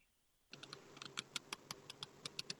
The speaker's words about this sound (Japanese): 今のタイミングでカードをカットしました。